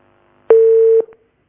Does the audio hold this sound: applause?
no